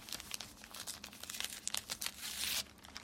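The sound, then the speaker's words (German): Crinkling and tearing of paper as a gift-wrapped book is unwrapped: dense, continuous crackling rustles with sharper rips throughout. “Ist das für mich? Das ist ja ein Geschenk. Ja. Hast du das selber eingepackt?”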